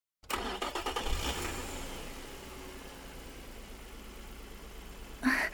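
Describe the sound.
A sports car engine starts with a loud cranking burst and settles into a steady, rumbling idle. A brief louder surge comes near the end.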